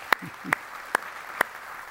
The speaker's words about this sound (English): Okay, will you help me welcome Sean Curran?